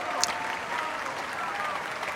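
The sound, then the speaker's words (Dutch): Applause from a concert audience in a basilica after a cello concerto at a festival: dense, steady clapping that carries on evenly, with a few shouted cheers mixed in. “En dit bravo geroep en applaus, dat ging nog minutenlang door in de Plegelmus Basiliek in Oldenzaal.”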